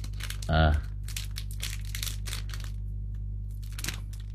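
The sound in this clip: Crinkling of a green tea peanut candy wrapper as it is unwrapped, a steady run of crackly rustles over a constant low hum, with a brief voice near the start.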